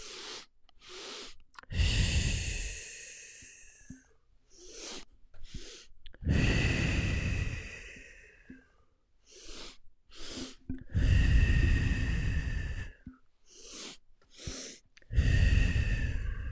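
Slow, deep breathing during a breathing exercise: a few long, noisy inhales and drawn-out exhales follow one another in a steady rhythm, separated by short quiet pauses, with no talk.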